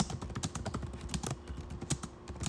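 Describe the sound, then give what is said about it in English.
Typing on a computer keyboard as someone writes a couple of sentences for a complaint. Many quiet keystrokes come in an irregular, fast rhythm, faint and with no talk. “I'm going to just type a couple sentences just because I'm going to attach the images of my complaint anyways.”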